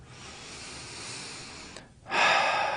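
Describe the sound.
A deep breath is drawn as a long, soft, airy rush over about two seconds. After a brief pause, a louder, stronger gust of breath follows.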